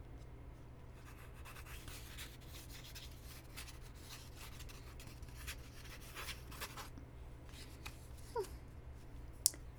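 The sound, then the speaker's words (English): Writing something down by hand: a faint, steady, scratchy rubbing of strokes, with a few sharper scrapes near the end and no talking over it. “Now then, why don't you tell me how you felt, and I will write it down.”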